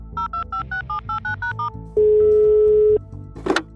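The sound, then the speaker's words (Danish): A telephone call is placed: nine quick keypad tones beep in an even rhythm, then a single steady tone sounds for about a second, followed by a brief click-like burst. “For at få svar på spørgsmålet, skal vi ringe til en, der selv arbejder med både YouTube og YouTubere”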